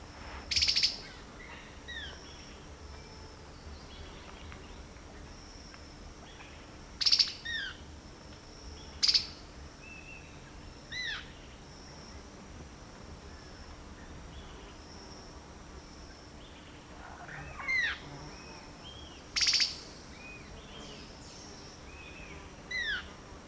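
Several short, high bird chirps ring out at irregular intervals near a waterlogged pool on a stream channel, over a faint, steady insect buzz and a quiet background hum.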